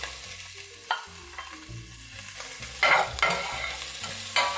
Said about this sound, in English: Here goes my minced ginger. Stir that up.